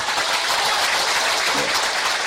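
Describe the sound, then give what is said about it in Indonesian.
Audience applause during a religious lecture, a loud, dense and even spread of clapping that holds at a steady level for the whole stretch. “Boleh tepuk tangan.”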